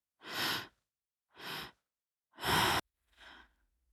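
Four slow breaths taken during a guided breathwork meditation, each a soft, airy rush of air separated by short silences. The third breath is the loudest and cuts off sharply, and the last is the faintest.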